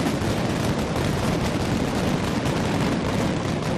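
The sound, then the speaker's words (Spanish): A mascletà firecracker barrage, 120 kilos of gunpowder set off in Valencia's town hall square during the Fallas festival, roars as a loud, relentless wall of overlapping blasts with no gaps. “120 kilos de pólvora devolvían la ilusión y la esperanza de unas fallas normales 2 años después en una mascletá disparada como manda la tradición desde la plaza del Ayuntamiento de Valencia.”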